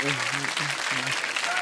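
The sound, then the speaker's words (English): Audience applause at a stand-up comedy show, a steady wash of clapping with a voice speaking over it throughout. “it does normally get a round of applause though, so thank you.”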